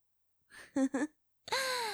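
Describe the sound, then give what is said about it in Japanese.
Soft, quiet breathing: a few short breathy sounds, then a longer voiced sigh that slides downward in pitch. “吐いて、吸って、吐いて、吸って、吐いて。”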